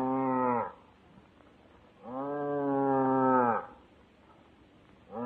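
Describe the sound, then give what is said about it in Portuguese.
An ox lows mournfully in two long, deep, harmonic moos, then a third moo begins at the end, with quiet gaps between the calls. “E como mugia o pobrezinho.”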